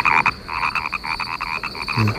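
Frogs croak in a dense, steady chorus, with rapid pulsed calls repeating throughout at a loud, even level.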